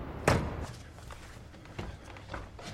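A car trunk is shut on a street with one dull, solid thump near the start, followed by a few faint, soft knocks and rustles, all fairly quiet.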